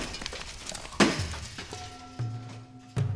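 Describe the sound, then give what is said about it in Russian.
Stones falling onto a man lying at the bottom of a well land in sharp, crashing impacts with a brittle clatter. A loud hit is followed by further heavy knocks over a low, steady hum. “сверху от чего-то посыпались камни, и я отключился”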